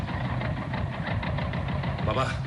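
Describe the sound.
A motorcycle engine slows toward a stop, giving a low, steady rumbling throb with faint pulsing and little change in loudness.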